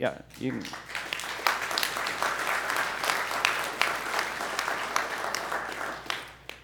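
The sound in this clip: Steady applause from a church audience during a Sunday service, a dense wash of many hands clapping for about six seconds, with a voice briefly at the start.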